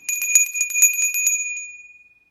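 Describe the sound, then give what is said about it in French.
Small bell rung to signal a return to movement after a relaxation exercise, a rapid run of bright, high, tinkling strikes that rings on alone and fades out. “Je vais prendre une grande respire. Et au son de la clochette, je vais pouvoir me remettre dans le mouvement.”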